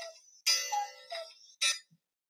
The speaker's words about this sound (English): Whose cuckoo clock just went off? That was my alarm.